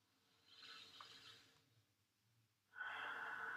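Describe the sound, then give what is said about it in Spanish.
A deep inhalation during a guided relaxation: soft, breathy airflow that swells and fades, followed by a stronger, rougher breath noise at the end, all quiet and without talk. “Inhalo profundo.”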